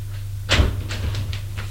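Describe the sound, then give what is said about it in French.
A cellar door being opened: a dull thump and creak, followed by a few softer scraping sounds over a steady low hum. “Il ouvre une porte, éclaire à l'intérieur”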